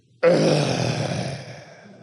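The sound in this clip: A single voice imitates a crowd's grumbling groan with one drawn-out, low, throaty moan that starts abruptly, stays loud, and then slowly fades.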